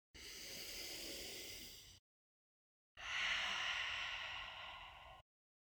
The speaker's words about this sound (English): Deep breath in. Deep breath out. Last time.